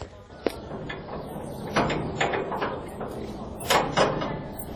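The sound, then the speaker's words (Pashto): A door is opened: a sharp click comes first, then a few soft thuds and scraping knocks follow over a low background murmur. “دروازه خلاصه کړه”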